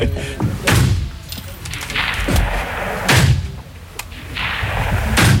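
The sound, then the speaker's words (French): Gunshots at a shooting range in Le Pâquier near Bulle, Switzerland: several loud, heavy reports spaced a second or more apart, each a sharp crack with a booming, rumbling tail. “on s'est rendu là-bas au stand de tir de la Tour, le Paquier Bulle.”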